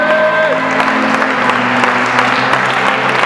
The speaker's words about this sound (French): Est-ce que quelqu'un peut dire Amen, Amen, acclame le Seigneur.